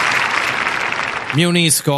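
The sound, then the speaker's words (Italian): A burst of applause plays as a sound effect, a loud hiss of many claps, then cuts off as a person starts talking. “E qui ci vorrebbe, se ce l'hai, un applauso.”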